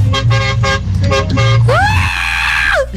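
A large truck's horn sounds a few short, bright toots, then a longer sustained blast whose pitch bends upward at the start and drops off at the end. The toots are loud and sharply tonal.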